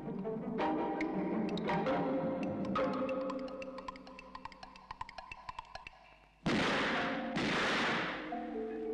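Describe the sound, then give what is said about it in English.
A shotgun fired indoors in the 1972 film Images: two loud, harsh blasts with rough noisy tails, one after the other. They cut in abruptly after a long stretch of tonal music scattered with light taps. “Who shot off the goddamn gun? I don't know. Who shot off the goddamn shotgun in the goddamn house?”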